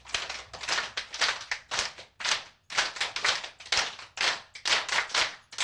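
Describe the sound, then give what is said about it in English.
Many sharp hand claps from a group clapping in a special way to stimulate energy points on the hands during a laughter-exercise warm-up. The claps come in quick, uneven bursts, fairly quiet and with no talk over them. “So to get the energy going, we're going to start off with the clap. We're going to clap this way because we're stimulating energy points here on the hands by clapping like this.”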